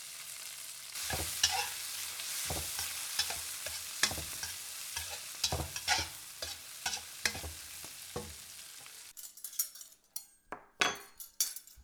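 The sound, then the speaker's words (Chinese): Food frying in a pan while being stirred, a steady sizzle broken by regular scraping strokes, followed near the end by sharper clinks of utensils and cookware. “肚子饿了？哦，妈这都去给你做饭去。”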